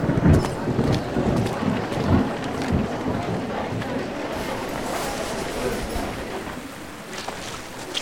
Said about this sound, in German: Ein Sturm zieht auf. Es wäre besser, hier zu bleiben.